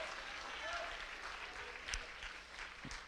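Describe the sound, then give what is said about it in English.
A church audience applauding to honor guests: a steady wash of clapping from many hands, fairly soft and even throughout. “Come on, make some noise and honor them in the presence of”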